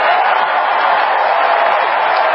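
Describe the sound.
A crowd cheers Donald Trump's Republican National Convention acceptance speech in a dense, steady roar that stays loud and unbroken the whole time.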